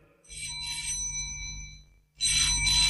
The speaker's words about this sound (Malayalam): ഫോണിന്റെ ബെല്ല് കേട്ടാണ് രാജമ്മ ഞെട്ടി ഉണർന്നത്.